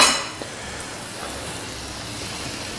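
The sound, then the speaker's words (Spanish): Chickpeas are tipped into a cooking pan with chorizo, a brief rattling clatter at the start settling into a steady, even sizzle. “Mira, los garbanzos se los vamos a poner ya directamente. Así.”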